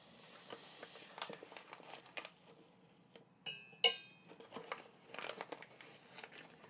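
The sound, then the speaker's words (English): Teaspoon scraping ground coffee into the bottom of a cafetiere, heard as faint, dry crinkly scrapes and soft patters with a few sharper clicks near the middle, no voices. “I'm going to spoon it into here for good covering in the bottom of the cafetiere.”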